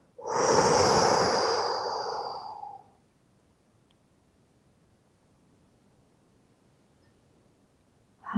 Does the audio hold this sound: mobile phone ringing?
no